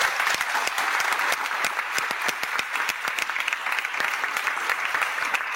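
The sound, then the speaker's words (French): Audience applause for a parish priest: many sharp hand claps merge into a strong, continuous round of clapping that keeps a lively, uneven rhythm at a steady loud level. “c'est bien sûr le curé de la paroisse, qu'on acclame très fort.”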